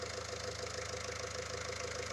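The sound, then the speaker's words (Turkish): A steady engine idle from a 1977-model vehicle just after its low-speed idle screw has been adjusted. The drone is even, low and fairly quiet, with a regular pulsing beat and no voices. “Evet oldu, motor önceki halinden daha iyi çalışıyor.”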